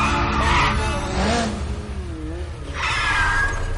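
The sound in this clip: A motorbike braking hard and skidding at the end of a race between motorbikes, with a few bright, squealing bursts over a low engine rumble.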